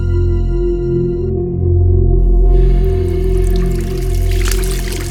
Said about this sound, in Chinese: 在洗手间洗了洗把脸之后，对着镜子照了照